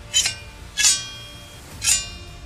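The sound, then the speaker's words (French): Sword blows striking during a fight with a monster, three bright metallic clangs with ringing tails, evenly spaced over a low background hum. “Deux, trois coups d'épée.”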